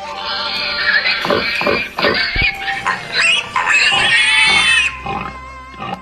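A small, round piglet oinks and grunts in several short, nasal bursts over a busy, dense background.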